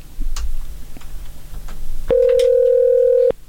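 A telephone rings with an incoming call. One steady electronic tone lasts just over a second and sounds loud over a low background hum.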